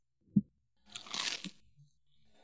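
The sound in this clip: Crunchy pizza, the contest winner, bitten into: a soft low thump, then about a second of crisp, brittle crunching, faint and alone.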